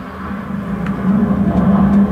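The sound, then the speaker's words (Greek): Low, droning rumble of an airplane flying overhead, a steady hum that swells slightly louder toward the end, heard alone without any talking. “Τι είναι αυτό, καλέ? Αεροπλάνο. Πόλεμος. Όχι, αεροπλάνο.”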